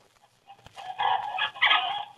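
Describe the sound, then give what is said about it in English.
Chickens cluck in a couple of busy bursts of rapid, fairly high clucks that follow a near-silent start. No voices are heard. “I'll go feed the chickens.”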